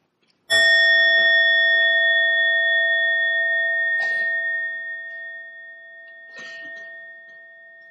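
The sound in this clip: A Buddhist bell is struck once and gives a clear, sustained ringing tone that slowly fades over several seconds, with a couple of brief soft knocks later on.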